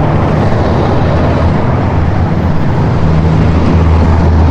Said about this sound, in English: It's kind of hard to be serious when there's all this traffic here.